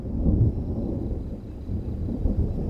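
Thunder rumbles low and deep in a steady rolling growl, with a few heavier swells near the start and the end. It is fairly faint overall, with no voices.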